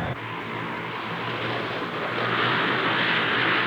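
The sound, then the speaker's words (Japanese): An airplane roars as it flies overhead, a civilian aircraft, giving a dense, broad engine rush that swells slightly louder over a few seconds, with no voices. “ちくしょう、待て、その飛行機。”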